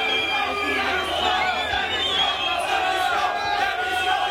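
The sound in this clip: A hostile crowd of exasperated livestock farmers at the Salon de l'agriculture during a president's 2016 visit: many overlapping voices shouting and jeering in a dense, sustained din.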